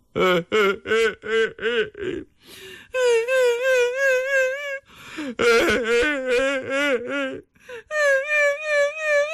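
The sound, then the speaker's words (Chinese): A performer's voice imitates a man and a woman crying together, alternating lower and higher wailing sobs in long, quavering bursts that continue one after another without stopping. “突然听到啊，隔壁的雅间里有人啼哭啊。”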